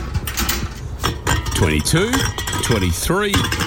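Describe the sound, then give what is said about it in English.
Empty beer cans clink and rattle as they are gathered up, with bright metallic knocks and clattering scrapes coming in irregular bursts. “Mate, what are you doing? Stock take before a barbecue? Ha, nah, collecting cans. This stash will get me close to $100.”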